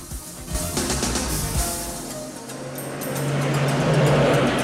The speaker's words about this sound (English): Now, the car's speeding along a coastal highway.